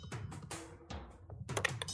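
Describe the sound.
A d20 die is rolled for an intimidation check in a tabletop game, making a few quick, sharp clattering knocks in an uneven rhythm that are fairly faint and heard alone.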